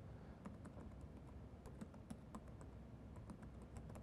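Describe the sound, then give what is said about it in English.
Typing on a computer keyboard as a URL is entered, many quick, faint key clicks in a steady patter with no voices. “Let's type in the name, homepage, type in the URL that we want to test against.”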